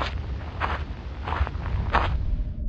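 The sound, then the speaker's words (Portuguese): Footsteps of a man walking faster toward a mountain: a few dull, evenly spaced steps over a steady low rumble. “olha para os lados e diz: Finalmente, já não era sem tempo então começa a caminhar mais rapidamente.”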